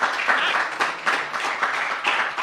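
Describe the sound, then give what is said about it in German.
Audience applause for two speakers being introduced at a talk, many people clapping together in a steady wash that swells and dips slightly in intensity throughout. “Ich übergebe das Mikro. Großen Applaus einmal für die beiden.”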